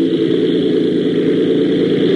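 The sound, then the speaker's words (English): Aircraft engine opened to full throttle for a takeoff run down a field, a loud, steady droning hum with a constant low rumble and no clear change in pitch across the short stretch. “Open her all the way, will you? The throttle's in the slot. Well, get up some steam. We're almost halfway down the field. I've got the tail up. We'll lift all right.”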